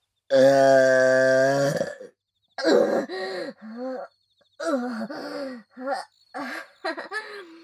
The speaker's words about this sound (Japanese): ゲップ出ちゃった。